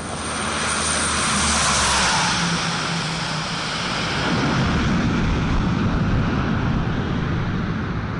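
The loud, steady roar of a C-130 Hercules military transport aircraft carrying peacekeeping soldiers out of Timor-Leste. Its engine drone fills the whole stretch, swelling gently and holding, with no voices over it.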